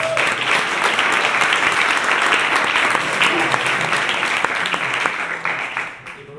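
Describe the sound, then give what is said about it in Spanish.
Applause from the audience at a 2015 game jam event: a dense, steady wash of clapping that holds for about six seconds, then tapers off at the end. “Un aplauso.”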